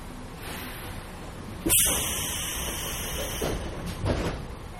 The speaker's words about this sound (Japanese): 電車は2番線の到着となります。お出口は左側です。